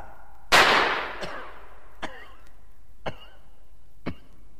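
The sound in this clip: A single sharp gunshot bangs out and leaves a decaying tail. A few fainter short knocks follow about a second apart.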